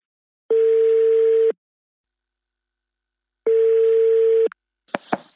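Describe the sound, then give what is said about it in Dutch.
An outgoing telephone call ringing: two long, steady ringback tones, each about a second long and spaced about three seconds apart, then a couple of sharp clicks. “misschien moeten we Frank even bellen. We gaan Frank heel eventjes bellen.”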